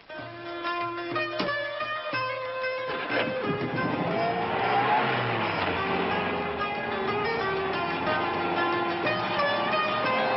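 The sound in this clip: Truck engine noise as the vehicle drives away, a loud, steady motor rumble with road noise that carries on through the whole clip.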